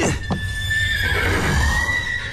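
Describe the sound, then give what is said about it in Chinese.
A horse whinnies in one long, high, wavering call that fills the whole clip over a low rumble. It is a biting horse with broken horseshoes and sore hooves, stressed inside a transport carriage. “我来看看这个咬人的马。”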